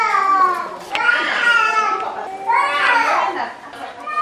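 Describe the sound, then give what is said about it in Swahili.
Young children crying and wailing during finger-prick blood tests for malaria at a health centre, with several long, high, strained cries rising and falling in bursts, one after another. “Kilio ya watoto ambao hawavumilie maumivu ya kutobolewa na shindano inatukaribisha.”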